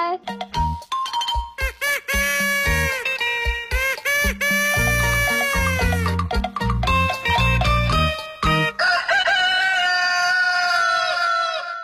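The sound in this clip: A rooster crows within a bright musical jingle full of chiming, bell-like tones and sustained melodic notes, loud and continuous throughout.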